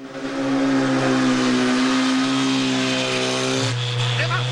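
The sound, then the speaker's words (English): A longboat engine roars as the boat races past tourist boats on the water, a loud, sustained droning whine that holds steady and then drops abruptly in pitch near the end. “Bond streams past the tourist boat. The longboat is catching up. Bond glances back over his shoulder.”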